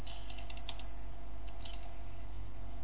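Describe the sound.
Typing on a computer keyboard at a Windows Vista PC, entering a command: a few scattered, soft keystrokes over a steady low hum, faint throughout.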